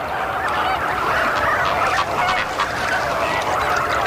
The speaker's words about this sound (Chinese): 好在每只青鸟都能发出独特的叫声